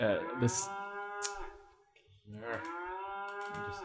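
A cow moos twice, each a long, low, droning call with a rich harmonic tone, separated by a short pause.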